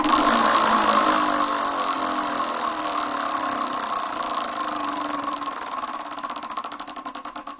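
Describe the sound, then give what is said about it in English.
A prize wheel spins with a dense, continuous rattling whir of its clicker. Toward the end the rattle thins and slows into more separate ticks as the wheel winds down. “Well, it's time to give the wheel a spin.”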